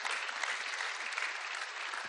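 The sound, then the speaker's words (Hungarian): Applause from a church audience after a sermon: dense, steady clapping that fills the whole stretch at an even, fairly loud level with no voices over it. “Csak adjunk egy nagy tapsot, tényleg csak hálások vagyunk.”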